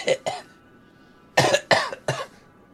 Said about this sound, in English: You can hear people cough as they walk by.